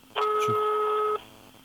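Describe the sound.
A telephone tone sounds as a number is dialed, a single loud, steady electronic beep with two blended pitches, held for about a second before cutting off, with faint background hum after it.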